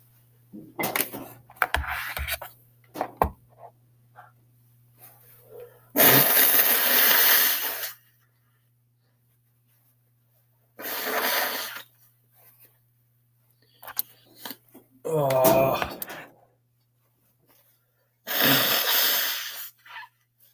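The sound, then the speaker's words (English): Forceful nose blowing into a rag by someone with a week-long stuffy nose: several loud, breathy bursts of one to two seconds each, separated by quiet gaps, with a few shorter, softer puffs earlier on. “All right, I'm going to stop and blow my fucking nose.”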